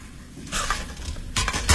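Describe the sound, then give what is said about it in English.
Metal cooking pots clatter as they are handled, with a few separate knocks and clanks rising out of a low background and no talking. “These are my pots, right? I'll leave you this one.”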